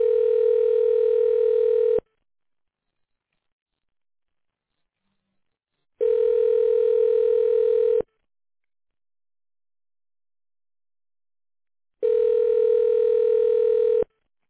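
A telephone ringback tone plays as a call is transferred to a secretary through an automated phone menu. Three two-second bursts of a steady mid-pitched buzz are separated by about four seconds of silence.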